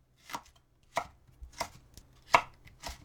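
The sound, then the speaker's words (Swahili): Knife chopping a seeded, stemmed bell pepper into long strips about 5 mm wide: several crisp, sharp thuds against the board, fairly evenly spaced and moderately loud, with no talk. “Katakata pilipili hoho vipande virefu vya upana wa milimita 5.”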